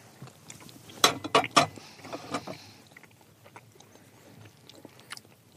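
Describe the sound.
Someone bites into and chews a small piece of cinnamon waffle: a few sharp, crunchy bites come close together, followed by softer, scattered chewing that fades to quiet.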